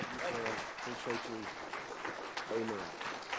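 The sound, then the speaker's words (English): A church audience gives a visiting bishop a standing ovation at Westmoreland, with dense, steady clapping throughout and voices calling out over it. “Come on, church. Stand and give him a welcome. A standing ovation.”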